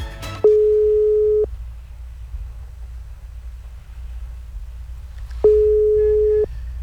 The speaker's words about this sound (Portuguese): Eita, será que vai atender? Tá com cara que não, hein? Tá só ligando.